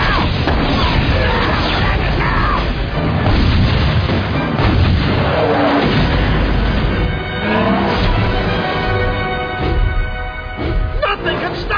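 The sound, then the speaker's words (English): Heavy naval gunfire as a battleship shells a robot: a dense, unbroken barrage of deep booms and crashing blasts rolls over a constant loud rumble, with no clear pause between shots. “Oh, battleship, fire at the robot!”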